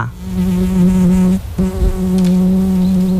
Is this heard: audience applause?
no